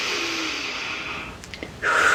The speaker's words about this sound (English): Take a nice deep inhalation.